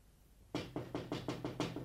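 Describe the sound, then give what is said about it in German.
Knocking on a window: a quick, evenly spaced run of several firm, hollow knocks begins after a brief quiet start, with no voices. “Es klopft ans Fenster.”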